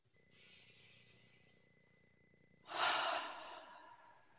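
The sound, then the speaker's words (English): A quiet deep breath with no talk: a soft, airy inhale, then a pause and a longer, louder exhale that fades out, over a faint steady hum. “Maybe take a deep breath.”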